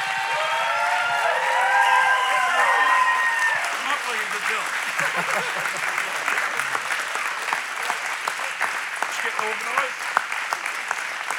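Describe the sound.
Audience applause at a church revival in West Virginia, welcoming a visiting evangelist: steady, dense clapping throughout, with a few voices calling out early on.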